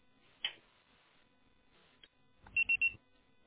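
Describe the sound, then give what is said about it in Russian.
Three short, high electronic beeps in quick succession sound on a phone line after an automated message saying the subscriber is busy. A few faint clicks come first. “Пожалуйста, попробуйте перезвонить позже или оставьте свое сообщение после звукового сигнала.”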